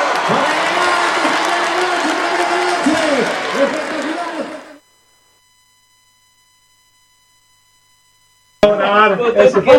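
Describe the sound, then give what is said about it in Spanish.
A crowd applauds and cheers for a cuarteto band. The loud, dense clapping and shouting lasts about four and a half seconds, then cuts off abruptly into silence before a voice briefly speaks near the end. “¡Fuerte ese aplauso!”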